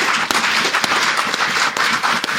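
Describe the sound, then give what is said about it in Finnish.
Applause from a church audience marking sixty years of activity: a dense, steady clatter of many hands clapping throughout, with no talk over it. “Joten ylistämme Herraa vaikka ihan antamalla hänelle aplodit.”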